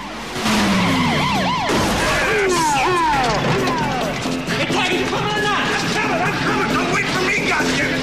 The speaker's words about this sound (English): He reverses up the road and crashes into another vehicle.